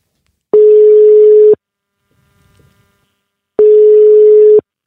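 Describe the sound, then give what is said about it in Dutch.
Ringback tone heard while a telephone call is being placed: two steady, loud, mid-pitched beeps of about one second each, separated by a long near-silent pause. “Laten we eerst maar eens gaan bellen, Kevin Brands”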